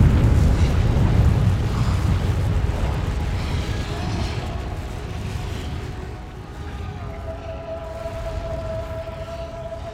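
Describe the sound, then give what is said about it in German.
The Tambora volcano erupts, the mountain blowing itself apart and throwing up columns of fire. A deep, heavy roar is loudest at the start and slowly thins, and a faint tonal whine emerges near the end. “Explosion sprengt der über 4000 Meter hohe Berg sich gleichsam selbst in die Luft. Feuersäulen schießen in die Höhe, vereinen sich schließlich zu einem flammenden Inferno, das tagelang wütet.”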